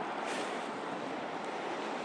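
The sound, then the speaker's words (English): Cold, wet wind blusters as a steady, dense rushing noise that stays loud and even throughout, with no voices. “Ugh, it's windy. It's cold, it's wet, it's horrid, really horrid.”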